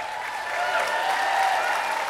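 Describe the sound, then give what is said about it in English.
Applause from a live audience at a political interview: a dense, steady wash of many hands clapping that holds at an even level through the whole short stretch. “Yeah, clap for that.”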